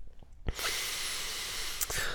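A long, hissing breath is drawn in after a few faint clicks. It stays steady and fairly quiet for over a second and a half, then ends with a soft puff.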